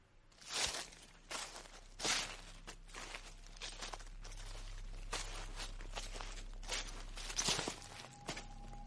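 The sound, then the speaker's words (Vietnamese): Soft footsteps rustling through a garden at night make a series of faint, uneven scuffs and brushing sounds, repeating irregularly with no talking. “ả nhận ra có tiếng chân của ai đó đang sột soạt đi lại ở ngoài vườn.”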